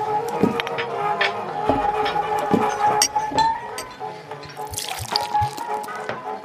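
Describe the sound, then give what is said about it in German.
Fresh butterbeer is drawn from a tap: liquid pours and splashes steadily, with scattered drips and faint glassy clinks. “ein frisch gezapftes Butterbier für den Mo”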